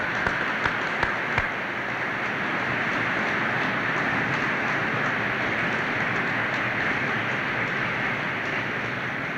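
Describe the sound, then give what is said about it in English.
Audience applause for a building's architect at a dedication: a dense, steady patter of clapping that runs for several seconds, with a few sharper individual claps near the start. “Mr. Estrich, would you stand, please? Would you please give Mr. Estrich a hand?”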